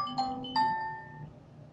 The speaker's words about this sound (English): excuse me, my phone was ringing